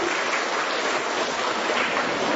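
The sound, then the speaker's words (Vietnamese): Applause welcoming a guest at a Vietnamese church gathering: a dense, even wash of clapping that holds at a steady level throughout, with no voices rising above it. “Chúng ta cho một tràng pháo tay hô một người anh em.”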